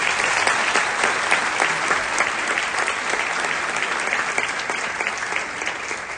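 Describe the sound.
A group applauds itself during a teaching session with a thick, continuous patter of many clapping hands. The clapping stays strong for about six seconds and eases off slightly toward the end.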